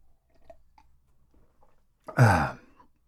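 A single short throat clear from someone with a tickle in the throat: a sudden, fairly loud rasp after near silence broken only by faint small clicks.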